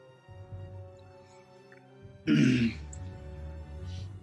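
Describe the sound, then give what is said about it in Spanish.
A single short, rough cough that is close to a throat clear stands out clearly against an otherwise quiet background. “Y Ralm tose y regresa con ustedes.”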